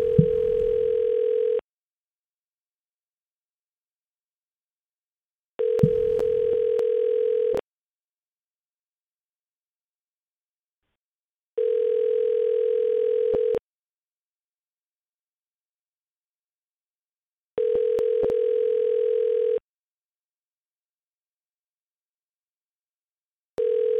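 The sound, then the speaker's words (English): A telephone call to a gas station ringing unanswered: a buzzing ringback tone repeats in steady pulses about two seconds long, separated by roughly four-second silences, with four full rings and the start of a fifth. “What kind of crap gas station doesn't have an answerable phone?”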